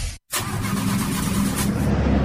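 A motorcycle engine starts in a motorcycle shop advert, cutting in after a brief silent gap and then running at a steady mid-pitched rumble that slightly strengthens, with no voices.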